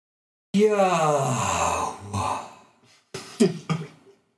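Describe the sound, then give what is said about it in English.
A big man with a deep voice imitates a long exhaled breath: a drawn-out, breathy, voiced exhale, then a pause and a few shorter breathy bursts, with no other sounds. “It's a breath. It's an exhale.”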